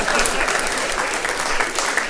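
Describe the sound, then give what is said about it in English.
A live audience breaks into clapping, a dense, steady patter of many hands that stays even and loud throughout. “I just want you guys to know that you all just clapped at the idea of me letting my son touch his dick.”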